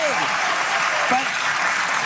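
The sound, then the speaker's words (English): Audience applause at a political event, a dense, steady wash of clapping that runs at an even loudness for the whole stretch, with a faint voice or two just audible beneath it. “And again, the seals in the audience clapping like a bunch of dorks.”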